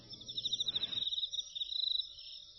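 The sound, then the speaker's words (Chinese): Cricket chirping inside a house: a rapid, high, pulsed trill that runs steadily throughout, fairly faint, with a low rumble under it for the first second. “是蛐蛐的叫声。”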